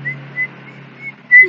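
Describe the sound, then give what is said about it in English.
A person whistles a tune in a few short, clear, high-pitched notes separated by pauses, with the last note the loudest. “that's my best whistling for it, guys. Sorry, I'm not that inclined musically.”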